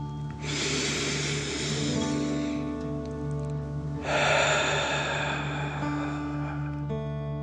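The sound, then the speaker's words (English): Deep breaths in and out during a guided relaxation exercise, heard as two long, airy, rushing breaths separated by a pause, set against soft sustained background tones. “Now, let's take three more deep dragon breaths. Deep breath in and out.”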